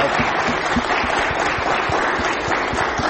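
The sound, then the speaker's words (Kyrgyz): A studio audience applauds Olympic athletes with a dense, steady wash of clapping that holds at an even, loud level from start to finish. “Кантсе дагы ошол алардын олимпиадага аракети үчүн бир кол чаап коелу э, түркүлөп болсо.”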